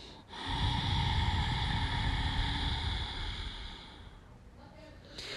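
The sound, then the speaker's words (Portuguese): A long, forceful exhalation through both nostrils during a guided breathing exercise, a loud rushing breath that holds steady for several seconds, then fades to near silence. “Solta todo o ar por ambas as narinas.”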